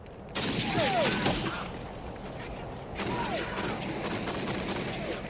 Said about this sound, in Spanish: El hombre dispara hacia el canino, pero sin querer alcanza la pierna de uno de los investigadores.